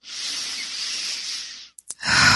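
A person takes a deep breath during guided meditation: a single long, steady, airy rush lasting about a second and a half, followed by a couple of short clicks.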